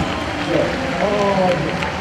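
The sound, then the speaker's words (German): Audience clapping at a live gaming convention stage show, a quick burst of many hands that swells slightly midway, with voices mixed into the noise. “Ich sag Danke, ihr sagt Danke, Danke, Danke. Hände hoch und klatschen, Freunde.”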